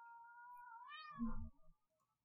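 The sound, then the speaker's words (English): A house cat meows once for attention, a clear, drawn-out mid-pitched cry that wavers and bends before ending abruptly, heard alone against near silence. “she's meowing at me to pay attention to her.”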